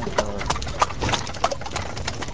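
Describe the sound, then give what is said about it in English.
Horse hooves clip-clop steadily as horse-drawn wagons roll through an ancient town in Afghanistan. The hoof strikes form a regular, moderately loud beat with no voices. “Their pickup trucks roll past the horse-drawn wagons of the locals.”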